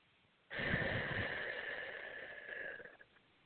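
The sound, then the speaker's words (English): One slow, deep breath, paced to a count of five, rushes in as a soft, airy hiss, holds steady for about two and a half seconds, then fades away. “So first breath, breathe in, count for five, and release for five.”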